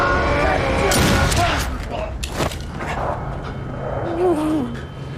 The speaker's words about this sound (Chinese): 开枪！